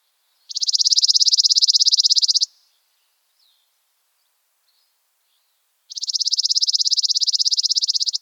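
Chipping sparrow trill: a loud, rapid, dry and even high-pitched trill lasting about two seconds, then a few seconds of silence before a second, similar high trill.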